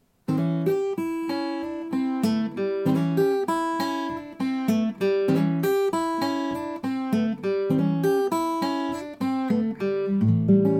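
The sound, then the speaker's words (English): Single-note blues guitar line implying an A7 chord in a 12-bar blues: a repeated, driving riff of plucked single notes in a steady, hypnotic rhythm, played alone and fairly loud throughout. “Just this single note line will perpetuate the rhythm and continue to insinuate an A7 chord. Here's how that would sound.”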